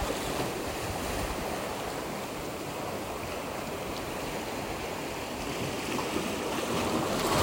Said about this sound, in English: You're here in Maui looking out at the big blue ocean.